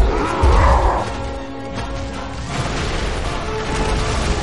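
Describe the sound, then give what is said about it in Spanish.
Stone temple columns crash as they are knocked down during a chase through a jungle temple in an animated film. A loud, heavy crash comes early, then gives way to a lower, steady rumble. “Golpea y derriba columnas a su paso.”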